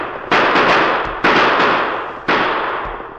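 Three loud gunshots fired at fleeing outlaws as a radio drama effect, evenly spaced sharp bangs, each trailing off in a long decaying tail.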